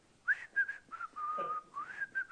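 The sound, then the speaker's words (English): A person whistles outside in the dark while rolling a garbage can. A short, clear tune of several bright notes is carried through a long held tone in the middle, with no talking. “And I'll go out there with my little garbage can rolling, and I start whistling.”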